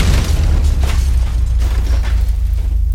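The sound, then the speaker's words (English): Explosion of a 60-foot hackway in a tabletop RPG session: a loud, sustained rumbling boom with heavy low-end roar that fills the whole stretch, with no talk over it. “Speaking of blown, as you're walking, the entire like 60 feet worth of this hackway explodes.”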